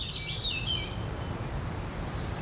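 Birds in a forest: one short, high, trilling call comes early, over a steady bed of low rumbling noise that continues to the end.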